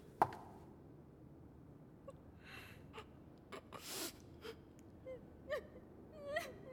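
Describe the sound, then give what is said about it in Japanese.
A prince crying, heard as quiet, intermittent gasping sobs and sniffles with breathy catches between them. “いつまで泣いているつもりだ。”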